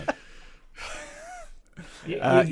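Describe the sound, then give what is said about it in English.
Sharp gasps of breath, short breathy intakes and exhalations interleaved with brief voiced sounds, ending in a louder, rougher burst. “You got a sharp outtake of breath from me, not a laugh.”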